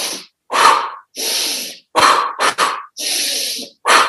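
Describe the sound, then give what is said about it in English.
Quick breathing drill: sharp sniffing inhales through the nose alternate with forceful blown exhales through the mouth, like blowing out birthday candles. Breaths come as a rapid run of many loud, airy bursts separated by short gaps, with no talking. “we can inhale really quickly through our nose and then exhale, blowing out through our mouth. Let's say, imagine the like pesky birthday candles in front of us here. So it looks like this.”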